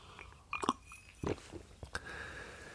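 Someone drinks coffee with soft mouth sounds: a few quiet wet clicks and gulps at irregular intervals, with a faint hiss behind them.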